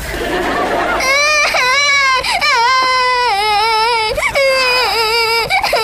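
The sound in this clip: The youngest child cries loudly, a sustained, wavering high-pitched wail with brief sobbing breaks, over steady background noise.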